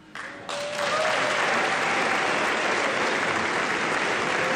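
Audience applause at a live music event as a singer is introduced: dense, steady clapping that starts softer and quickly swells to a loud, even roar that holds throughout.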